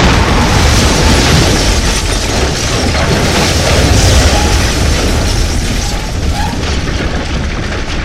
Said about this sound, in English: the whole stone chamber around us explodes.